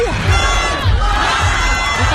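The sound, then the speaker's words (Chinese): Crowd cheering at a New Year's Eve countdown in Beijing, a loud, continuous roar of many voices shouting and cheering together without a break. “哇， 所有人都在欢呼。”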